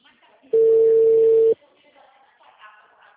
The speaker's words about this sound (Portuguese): tá tocando só. Tá.